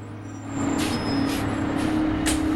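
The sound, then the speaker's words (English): Bus pulling up at a stop: a low engine rumble swells after the first half second and holds steady, with a few short hissing bursts of air breaking over it. “A bus pulls up at a stop.”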